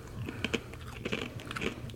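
Someone crunches and chews a fortune cookie in a quick, irregular series of crisp bites and cracks, fairly quiet, with no talking.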